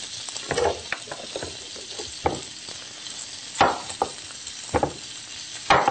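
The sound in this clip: Meat browning in a pan, a steady sizzle of frying broken by scraping stirs and light clinks, moderately loud with no talk.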